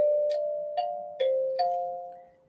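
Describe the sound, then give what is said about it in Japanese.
Kalimba being played: four plucked metal-tine notes, each with a bright attack, ringing on as sustained mid-pitched tones that overlap and then fade softly toward silence. “カリンバいい音するんだよね、すごい。”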